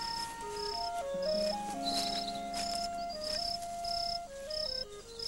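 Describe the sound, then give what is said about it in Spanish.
A cricket chirps in steady, evenly spaced high-pitched pulses that repeat throughout, over a gentle stepping melody. “¡Un grillo! Vamos a ir a cazarlo, es un grillo príncipe. ¿Cómo lo sabes? Por el canto.”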